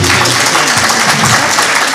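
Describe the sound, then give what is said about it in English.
Applause for the candidates at a live county candidate forum held in a high school: a brief, loud, dense burst of clapping from an audience. “If we could have a round of applause for them.”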